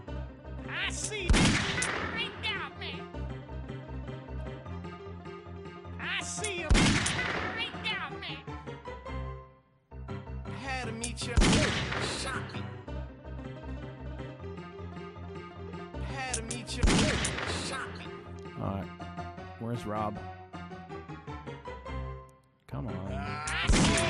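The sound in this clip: Gunfire in a video game: about five loud bursts of shots, spaced several seconds apart, punctuate continuous talking throughout.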